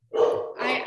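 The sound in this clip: A dog gives a single drawn-out bark or yelp, loud and bright, lasting nearly a second.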